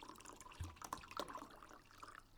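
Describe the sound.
Water and wine are poured into glasses, a faint trickle with soft splashes and drips.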